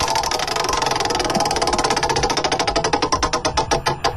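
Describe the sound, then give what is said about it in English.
A game-show category prize wheel spins with a rapid, steady run of loud ticks that gradually spread apart as the wheel slows toward a stop. “Should we give this wheel a spin”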